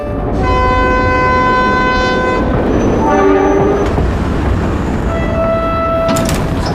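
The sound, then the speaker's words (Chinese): A train arrives at Haihe railway station with a loud, steady rolling rumble. Sustained tonal horn or whistle notes sound above it, shifting pitch around the middle, then a further high tone and a few sharp clanks near the end. “列车到达海河火车站，请您整理好。”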